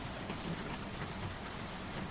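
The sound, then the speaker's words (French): Rain falling during a storm, a dense, even hiss of drops that stays steady and fairly quiet throughout, with no distinct individual impacts. “Nous sommes assis, la pluie, le tonnerre et moi,”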